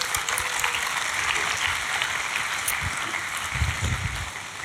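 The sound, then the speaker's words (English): A church audience applauds four volunteers as they come up on stage, with a steady, full wash of clapping throughout and a few heavier claps standing out near the end. “Church, would you welcome them? There are four volunteers that are going to come up on stage to show us how this passage is going to look like. Come on, give them a big hand.”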